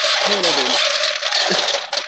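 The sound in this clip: Ice is scooped up in a loud, continuous clatter of hard pieces rattling and scraping together, with a short dip midway before the jangling resumes.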